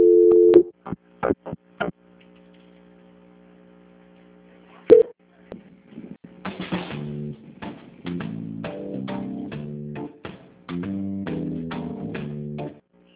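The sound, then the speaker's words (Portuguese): Telephone line tones after a dropped call transfer: a brief steady tone and scattered clicks, another short tone, then a longer run of repeating tonal pulses. “Bom dia, que caiu a ligação. Eu vou transferir novamente.”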